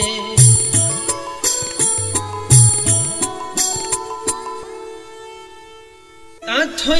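Bells ring rapidly and repeatedly in a quick rhythmic pattern, each strike bright and metallic. The strikes then stop and leave a long fading tone before a new burst of sound begins.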